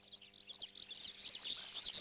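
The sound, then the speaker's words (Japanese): A bird chick peeps in the nest as a parent returns with food, giving many rapid, high, thin cheeps in an uneven stream, faint throughout. “父親が巣に戻るとピーピーと鳴きながら大きな口を開けています。”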